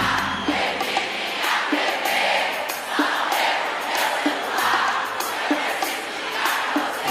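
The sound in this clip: Concert crowd cheering and shouting as one dense, loud roar that runs the whole way through. Regular accents pulse through it about every second, with no single voice standing out.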